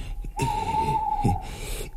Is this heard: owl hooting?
yes